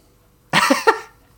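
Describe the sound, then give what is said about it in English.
A dog sneezes once in a short, sharp, breathy burst with a quick second puff, loud against near silence. “That's my dog sneezing a lot.”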